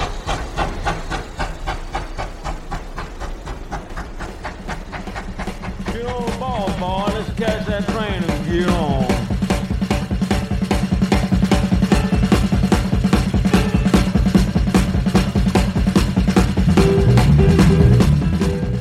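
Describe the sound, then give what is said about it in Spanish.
A train setting off: a steady, rhythmic chuffing with hissing steam that gradually grows louder, and a brief wavering tonal sound partway through. “Bueno, ya se ha puesto en marcha el tren porque casi ni nos ha esperado.”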